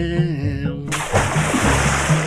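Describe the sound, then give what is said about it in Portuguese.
A heavy splash as a man in armour throws himself into a river breaks in suddenly after a short tonal passage, then water churns and gurgles continuously while low sustained tones carry on beneath. “Rei Roberto se atirou no rio, sendo levado para o fundo das águas pelo peso de sua armadura”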